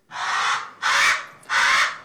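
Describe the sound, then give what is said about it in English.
Three loud, harsh caws from an alala, the rare endangered Hawaiian crow, each drawn out and evenly spaced with short pauses, heard alone. “That's the sound of the alala, a rare crow that's only found in the Hawaiian Islands.”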